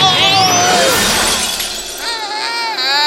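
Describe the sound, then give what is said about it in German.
A glass ball drops and shatters in a loud burst of breaking glass with tinkling shards, followed by quieter ringing tones. “Meine Kugel! Er hat die Kugel runterfallen lassen. Knotterschlotter, jetzt ist sie kaputt.”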